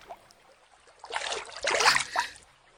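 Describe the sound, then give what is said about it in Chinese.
Water splashes in a royal bathing pool. A quiet stretch gives way to a few soft, sloshing bursts of splashing in the second half. “怎么还泼起水来了？毕竟是皇家浴场”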